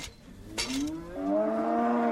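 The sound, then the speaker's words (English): A cow lowing during calving on a farm, while a calf is delivered with a long metal birthing tool. One loud, drawn-out moo swells and rises slightly in pitch, then holds steady to the end. “He grabs a long metal birthing tool to steady the cow and deliver the calf.”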